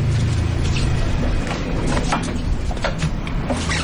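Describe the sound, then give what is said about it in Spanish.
A fishing boat's engine runs with a steady, loud low rumble and throbbing low harmonics, with faint mechanical rattles above it, and keeps going at an even level for the whole stretch. “Bueno, ahora vamos a la lonja. Voy a apagar el motor.”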